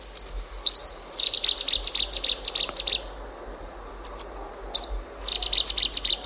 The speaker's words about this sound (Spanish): ¿Quién es este amigo tuyo? Este es el ruiseñor bastardo, que tiene así un nombre como muy, ¿no?